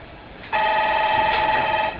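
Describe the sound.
A telephone rings with one steady electronic tone that starts abruptly and holds for over a second before stopping.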